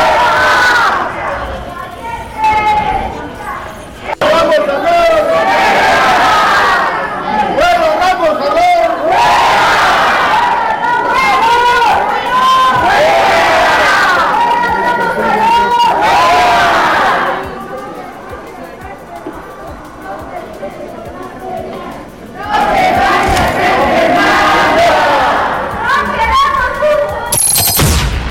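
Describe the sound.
Crowd of protesters chanting demands about hospital care in unison, loud rhythmic bursts of shouted slogans that break off into a quieter stretch midway before the chanting surges back.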